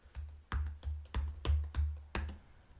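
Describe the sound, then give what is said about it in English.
Someone typing loudly on a computer keyboard: several heavy, sharp keystrokes in an uneven rhythm, with no other sound. “Oh, I gotta type. I'll type. I'll do it as loudly as possible.”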